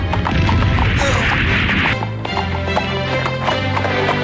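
Rapid hooves clip-clop loudly and continuously as a pony gallops in a video game, with other game sounds mixed in.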